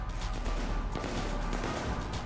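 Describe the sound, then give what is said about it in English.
Gunfire rattles in a science-fiction video game firefight, a few sharp shots and crashing impacts over a low, rumbling bed, fairly faint overall. “They're shooting at Liara, who is force crushing them.”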